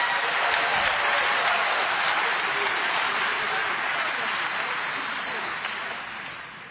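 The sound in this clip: Audience applause welcoming a speaker to the stage at a San Antonio gathering: dense, continuous clapping from a large crowd, holding steady before fading out toward the end.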